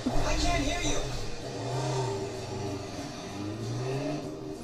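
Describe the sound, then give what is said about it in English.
A motorbike engine revs in sustained, throaty drones that swell and ease, with people talking over it throughout. “Just rev up this fucking bike.”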